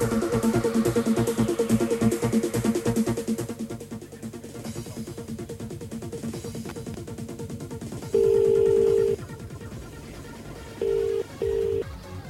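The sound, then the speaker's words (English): Telephone tones sound while someone is being called back: one long steady beep, then two short beeps, all mid-pitched and heard over a continuous background sound that fades down beforehand. “Shall I give her a ring back? Go on.”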